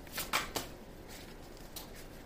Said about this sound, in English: Let me go ahead and take some cards right quick.